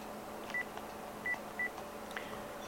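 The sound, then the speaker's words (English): Faint telephone tones from a phone during a gathering in a home: a few short, high electronic beeps at irregular intervals over a steady background hiss. “Apologize for the phone call.”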